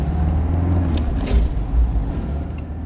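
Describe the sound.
A taxi pulls away in a steady, low engine rumble that holds at an even level throughout. It carries no speech and nothing else of note.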